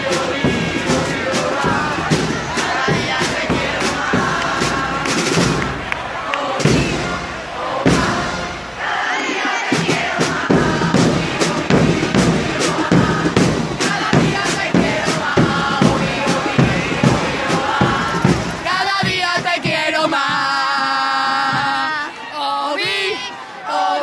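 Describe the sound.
A street crowd sings loudly and continuously during the Three Kings parade in Seville on Menéndez Pelayo street, a dense mass of voices with scattered thumps and chatter throughout.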